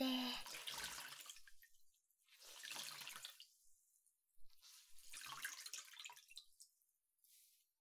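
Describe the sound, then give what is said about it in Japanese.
A towel soaked in hot water with citrus oil is wrung out, giving three separate bursts of trickling, splashing water, each fading out, then a brief faint drip at the end. “お湯に浸したこのタオルをこないして絞って”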